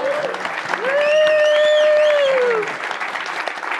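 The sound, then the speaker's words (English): Audience applause for a panel at an editors' industry event: a steady wash of clapping with a sustained tone riding over it, swelling and then easing off near the end. “let's give a round of applause for our fabulous”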